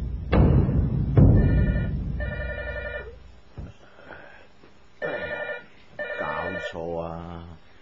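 A telephone rings at home with an incoming call: short repeated bursts of bright ringing, preceded by two heavy thuds.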